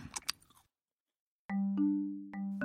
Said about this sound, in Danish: Hør bare her. Mmm, chokolademad. Det smager bare mega godt.